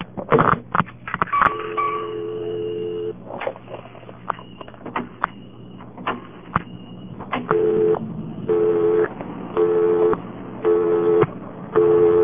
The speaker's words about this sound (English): Every other time I ever dialed an invalid prefix, I got a busy signal of a very unusual kind that I wanted to demonstrate.